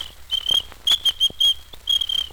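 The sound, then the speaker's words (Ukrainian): A small ladies' whistle used by a traffic officer is blown in a quick series of short, shrill, high-pitched blasts, ending in a longer fluttering trill, with no talk over it. “У мене для неї був дамський свисточок.”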